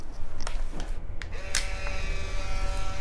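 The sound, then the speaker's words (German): An old camera taking a photo: a few sharp mechanical clicks, then a thin, steady electronic whine that holds to the end over a constant background hiss. “Davor mache ich noch ein Foto von Ihnen.”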